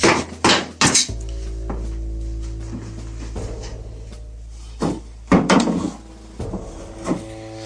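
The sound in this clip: A metal kettle being handled at a kerosene stove, with a few sharp metallic clanks at the start and more clatter later. A steady low hum runs underneath.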